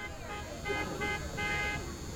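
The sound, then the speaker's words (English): Car horns honk around a baseball game, three short toots in quick succession over a steady, noisy background. “Honks littering the atmosphere at this point”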